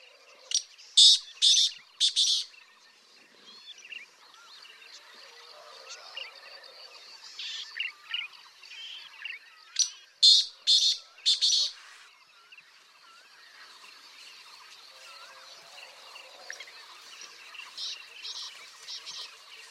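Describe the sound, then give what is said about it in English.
White-tailed tropicbird calls: two clusters of shrill, loud bursts, one near the start and one in the middle, with fainter bird chatter in between. “White-tailed tropic bird.”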